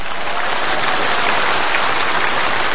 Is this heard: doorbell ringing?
no